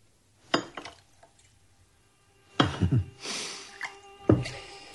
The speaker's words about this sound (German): Der Maler holt die Flasche aus der Kiste, wischt sie ab mit seinem Mantel, gießt ein in die langstielig dicken Gläser.